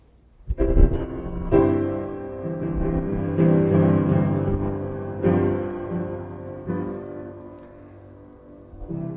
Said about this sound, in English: Now listen to this chord. This sound is called a 5-1 progression.